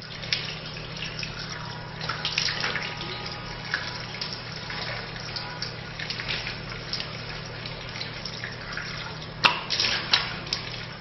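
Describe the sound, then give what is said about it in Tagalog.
Water splashes softly as the face is washed during Islamic ablution. Faint running water continues throughout, broken by a few light splashes and a sharper splash near the end. “Hugasan ang buong mukha ng 3 beses. Siguruhing mabasa ang buong mukha kasama ang balbas kung mayroon.”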